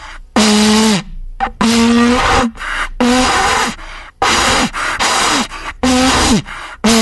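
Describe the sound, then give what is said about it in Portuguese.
A World Cup vuvuzela blown by someone struggling to play it: several loud, breathy, buzzing blasts separated by short gaps. Each holds a low droning note that sags in pitch as it ends. “e eu tenho aqui a Vuvuzela da Copa, peraí, deixa eu tocar a Vuvuzela, só um minuto.”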